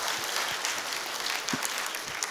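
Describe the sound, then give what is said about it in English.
A First Assembly church audience applauds to welcome a returning visitor. Soft, dense clapping continues evenly throughout, with a few slightly sharper claps standing out. “Give her a good hand clap, a First Assembly welcome.”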